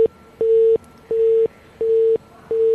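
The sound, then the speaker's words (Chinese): A busy tone after a caller hangs up a telephone call to a water company office: a steady mid-pitched beep that switches on and off in an even, quick rhythm, about five pulses with the first and last cut short. “目前是挂断电话了是吗”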